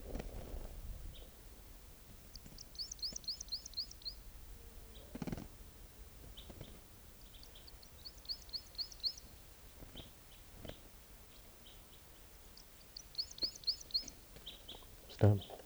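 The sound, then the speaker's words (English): A bird calls in three bursts of rapid, high chirps, with scattered single notes and a few low thumps between the bursts. “Here's that same bird.”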